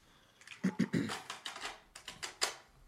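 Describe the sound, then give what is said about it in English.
Plastic tape handled against plastic, producing many crisp, quiet clicks and crinkles in an uneven, tapping rhythm. “that tape sound was so good. That was just like, that made my entire day. Plastic on plastic.”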